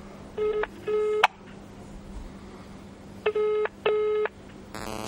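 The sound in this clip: A telephone call is placed: two pairs of buzzing electronic ring tones sound, each pair of short bursts separated by a long pause. A quick series of rapid electronic tones follows at the end.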